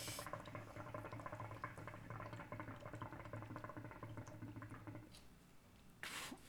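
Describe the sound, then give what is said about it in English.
Hookah water bubbling: a faint, continuous gurgling churn that lasts about five seconds and then stops, followed by a brief noise near the end. “I bet there could be like 10 cut minutes of just hookah bubbling noises.”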